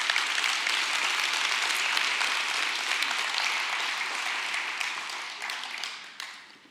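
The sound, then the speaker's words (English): Audience applause welcoming a couple up in front of the gathering at a morning event. Dense, steady clapping holds strong, then thins and tapers off toward the end. “I want you to put your hands together as we welcome up this morning Preston and Kendall McFarland.”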